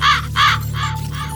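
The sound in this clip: A raven caws a few times in quick succession, loud, harsh and rasping, above a low steady hum.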